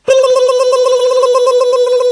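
Ringing tone on an outgoing telephone call to a photo shop: one steady, loud, buzzy tone that starts abruptly and holds unbroken throughout.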